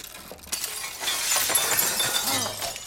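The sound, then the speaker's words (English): Window glass shattering in a hotel room in an animated cartoon: a sudden loud crash of breaking glass about half a second in, followed by a dense, sustained spray of tinkling shards that continues to the end. No one speaks. “The room window shatters completely.”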